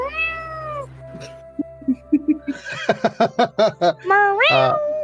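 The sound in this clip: A cat meowing: a drawn-out meow opens, a run of short pulsing, laugh-like sounds follows, and a rising meow comes near the end.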